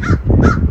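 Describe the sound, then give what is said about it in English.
A crow-like bird squawks from a tree overhead, giving two harsh, raspy caws in quick succession over a low, steady background. “Listen to that beautiful bird squawking away the tree above.”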